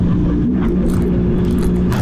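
A small car drives and turns with a cramped cabin and pedals set close together. Its engine gives off a loud, steady, low rumble and hum that holds constant throughout.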